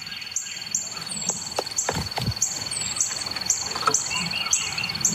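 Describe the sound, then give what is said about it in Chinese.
Repeated high chirping calls from a sentinel bird giving an all-clear signal near a bird feeder, many short notes in a steady rhythm over a few low thumps. “危机过去之后，哨兵则会发出危险解除的信号。”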